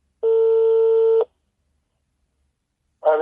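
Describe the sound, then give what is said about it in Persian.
A telephone number is dialed during a phone call: a single steady electronic tone holds for about a second, then silence, then a short harmonic burst at the very end. “مجددا با آقای هادی زاده تماس گرفتم”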